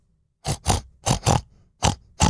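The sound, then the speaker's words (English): A pig in a pigsty oinks in six short, gruff grunts. The first four come in two quick pairs, then two more follow spaced apart, each one abrupt with quiet gaps between. “an oinking noise. What can that be? It's the pig in the pigsty.”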